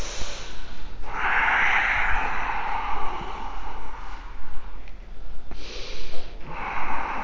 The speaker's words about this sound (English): Breath in, breath out. Inhale, exhale.